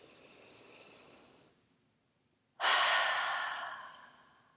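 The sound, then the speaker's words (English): A deep breath drawn in through the nose gives a soft, airy rush that fades away. After a short silence comes a loud, breathy open-mouth exhale that gradually tapers off. “Go ahead and close your eyes and take a deep breath in through your nose with an open mouth exhale.”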